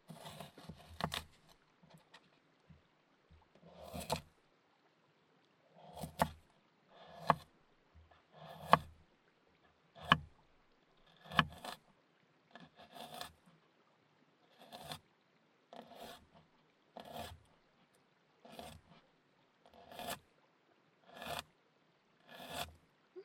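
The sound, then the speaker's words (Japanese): Knife cutting a daikon radish into pieces for pickles: a long run of sharp, evenly spaced cuts, each a crisp rasping stroke, steady in rhythm with no talk. “大根も何種類かの料理に使うから切り方を変えないとね。最初はお漬物用に切って、”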